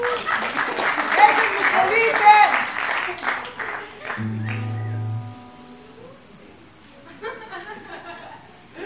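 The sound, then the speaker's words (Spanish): Audience applause at a live music show introducing a performer, several seconds of loud clapping with some chuckling, followed by a sustained low tone and then near quiet. “Un aplauso, ¡perfecto! Por favor.”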